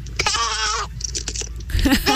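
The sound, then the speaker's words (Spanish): A schoolchild's voice imitates a sheep's bleat with a wavering, nasal baa lasting over half a second. Short vocal sounds follow, then a second, rougher bleat. “así suena mi oveja”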